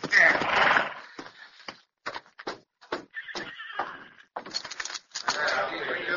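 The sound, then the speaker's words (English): A horse whinnies loudly, then its hooves clip-clop in an uneven rhythm as it is ridden toward a cabin in the hills, ending in a steadier rush of noise. “Later that day, Carlos rode to a cabin in the nearby hills.”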